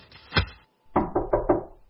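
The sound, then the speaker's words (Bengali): Knuckles knock on a door: a first dull thud, a brief pause, then four quick, evenly spaced raps. The knocks are firm and sound alone against silence. “এমন সময় দরজায় টোকা পড়ল।”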